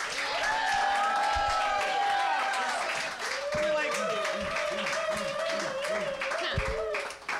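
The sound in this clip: Applause from a live comedy show audience welcoming a performer onstage, a dense steady wash of clapping with cheering voices and shouts riding over it for the whole clip.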